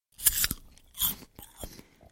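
Crisp bites into a piece of apple, followed by crunchy chewing. A few sharp crunches come in quick succession, quiet and alone.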